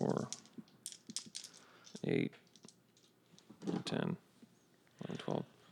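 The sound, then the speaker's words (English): A handful of twelve dice, hunger dice among them, rattle as they are rolled for a tabletop game, making a few short bursts of clattering clicks with people talking in between. “So I'm rolling 12 dice.”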